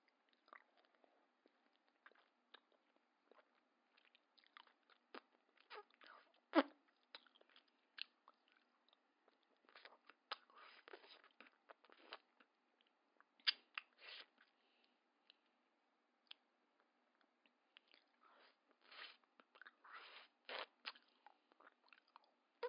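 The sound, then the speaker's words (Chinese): Someone bites and chews an ice lolly on a hot day while playing a game. Many crisp, faint crunches come in irregular clusters, separated by short quiet gaps. “我在吃冰棍啊”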